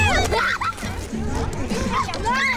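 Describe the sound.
Children and young people busy at a youth centre summer scheme: a lively babble of kids' voices, with excited high-pitched shouts and calls rising above the chatter throughout.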